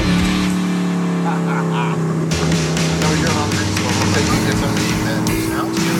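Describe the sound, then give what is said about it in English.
Engine of a recently tuned 1932 Ford hot rod being driven on a cruising day, a loud, continuous rumbling drone with strong harmonic tones that shift in pitch partway through. “mainly to test out my 32 Ford that we recently did a little bit of tuning up on”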